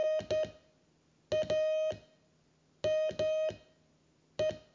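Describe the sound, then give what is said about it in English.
Morse code spelling the word "name": a clear, steady pitched tone keyed into short and long beeps. The beeps come in a few separate groups with silent pauses between them, heard on their own. “but you might say my name is, so name sounds like this.”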